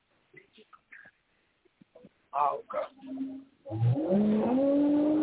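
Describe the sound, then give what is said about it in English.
Japanese import car engine revving after some talk, a loud rev climbing in pitch through the last second and a half. “Don't nobody want to hear that little fucking rice burner.”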